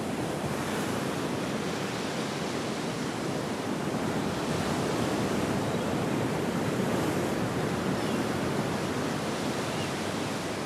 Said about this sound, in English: a wide view of the ocean on a sunny day as whitecaps roll to shore